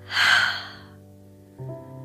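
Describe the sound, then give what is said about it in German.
A deep breath in and out during a guided breathing exercise: a single airy, breathy swell that fades, followed by a soft sustained tone. “Atme einmal tief ein und wieder aus. Noch einmal tief einatmen und ausatmen.”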